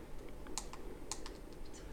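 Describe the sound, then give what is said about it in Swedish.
Keys pressed on the braille keyboard of a Focus 14 braille display, including the enter key: a few light, crisp taps with two sharper clicks, faint over a steady background hiss, with no talking. “Sök recept och så trycker jag på enter på det där.”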